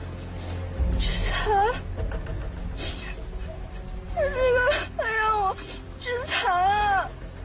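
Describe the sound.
A person cries beside a booby-trapped mine that is about to be disarmed, letting out several high, wavering sobbing wails that rise and fall in pitch. A steady low rumble runs underneath the crying.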